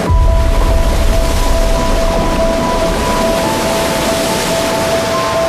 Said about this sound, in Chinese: 3台世界上运行速度最快的起步机依次开启，超过15万立方米的水从船闸闸室中依次涌入高位